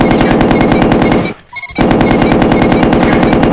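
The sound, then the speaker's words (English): Rapid machine gun fire in a video game, dense, loud and evenly repeating shots in a sustained burst, broken by one short pause before firing resumes. “Machine gun.”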